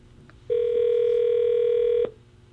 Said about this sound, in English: Okay, here it is. Let me dial it up.